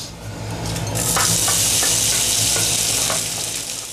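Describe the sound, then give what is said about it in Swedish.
Baltic herring and other ingredients sizzle while simmering in a frying pan. A steady, bright hiss grows louder after the first second and then holds, with a few faint clicks scattered through it. “Vi låter fisken och de andra ingredienserna sjuda i pannan medan vi diskuterar strömmingens vara och icke-vara.”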